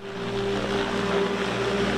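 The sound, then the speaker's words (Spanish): Loud, steady droning of an autonomous multicopter truck's rotors and engine as it takes off for the first time during a test in the California desert, a continuous tonal buzz with no break. “Este es un multicóptero que despega por primera vez.”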